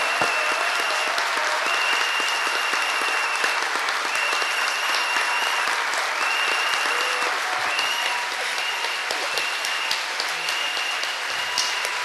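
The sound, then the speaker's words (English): An audience claps with all its strength during a praise session, keeping up a loud, dense, unbroken roar of hands for about twelve seconds at an even, sustained level. “Clap de toutes tes forces. Clap with all of your strength.”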